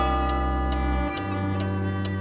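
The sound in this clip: Clock ticking, a personified broken clock: five crisp, evenly spaced ticks over a steady sustained tonal drone.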